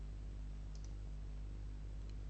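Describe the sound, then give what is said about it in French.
Faint clicks of a computer mouse clicking on a photo: a quick pair of clicks, then a single click a little later, above a low steady hum. “Je clique sur une photo, je la vois en grand.”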